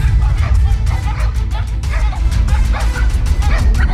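Hounds barking: a pack of dogs lets out rapid, overlapping barks and yips, loud and continuous, over a heavy low rumble.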